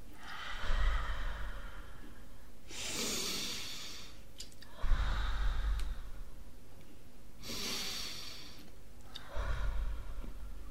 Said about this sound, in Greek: και ξεκινάμε την εισπνοή από τη μύτη, εκπνοή από το στόμα, αργά και σταθερά όπως μας αρέσει.